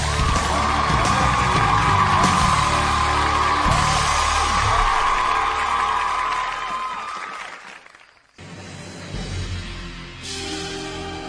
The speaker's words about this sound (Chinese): 掌声之后，让我们洗耳恭听，让咱们拭目以待。